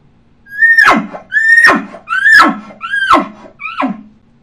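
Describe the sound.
An elk grunt call imitated by a human caller through a calling tube: five evenly spaced, loud calls. Each begins as a short, high, reedy tone and drops sharply into a low, breathy grunt.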